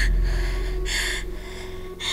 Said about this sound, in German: Ich krieg wieder so schwer Luft.